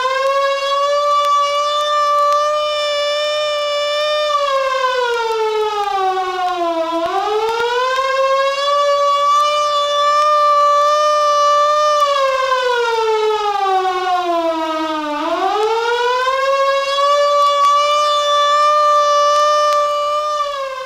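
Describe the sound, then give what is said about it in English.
A civil defense take-cover signal from a 1961 survival recording: a loud, continuous wailing siren whose pitch sags and then climbs back up twice in slow, drawn-out swoops. “The take cover signal is a wailing tone or a series of short blasts of 3 minutes duration.”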